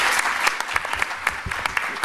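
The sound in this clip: Audience applause welcoming a guest to a discussion panel: steady, dense clapping from many hands, loud and continuous throughout with no talk over it.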